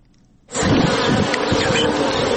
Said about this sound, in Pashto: دا د شاتو د مچیو فارم دی چې شپولای په پالنه بوخت دی.